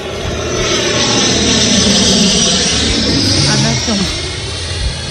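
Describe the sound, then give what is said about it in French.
An airplane engine roars in a steady, broad, droning rush that holds loud for about five seconds before easing slightly at the end. A voice briefly talks over it. “Oui, c'est un avion.”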